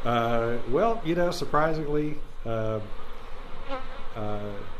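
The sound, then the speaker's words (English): Honeybees buzz around Greg and Melody's hive in Bellbrook, a steady insect drone underneath a voice that speaks throughout. “The bees are out pollinating crops and flowers, gathering pollen from Xenia and Kettering before coming home to Bellbrook to make honey in Greg and Melody's hive.”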